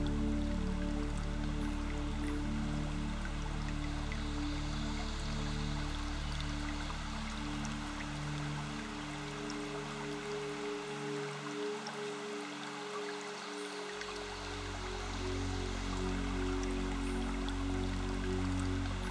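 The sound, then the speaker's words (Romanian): Water flowing from a small sun-warmed spring, a steady, unbroken rushing trickle with fine splashing texture that holds an even level for the whole stretch, with no voices. “Începe să te conectezi cu sunetul unei ape curgătoare.”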